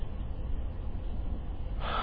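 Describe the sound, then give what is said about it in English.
A deep breath drawn in during a breathing exercise, with the shoulders and chest lifting. A steady, breathy hiss of air runs through the whole clip and grows brighter and fuller near the end, with no talking. “take a few really, really deep breaths in and out.”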